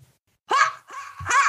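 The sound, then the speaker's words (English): A human voice imitates the bark of a bog owl, giving a few short, harmonic, hoarse barking calls in quick succession after a brief silence. “It's been a while since I've done the bark of the bog owl.”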